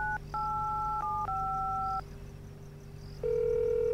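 A call is dialed on a telephone with a few two-pitch touch-tone key tones in quick sequence, then a brief gap and a loud steady tone, all over a constant low hum.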